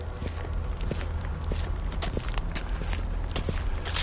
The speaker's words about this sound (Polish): Idziemy sobie pomaleńku, jak ja to mówię. Wolnym, ale jednostajnym krokiem.